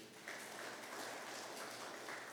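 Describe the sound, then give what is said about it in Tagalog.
A church audience applauds the Lord with dense, steady clapping that holds at an even, moderate level for the whole stretch. “Palakpakan po natin ang Lord.”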